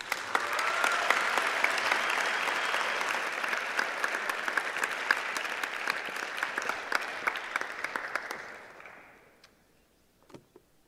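Dense audience applause at Covenant College welcomes back a guest lecturer, holding steady for about eight seconds before tapering off to a few scattered claps.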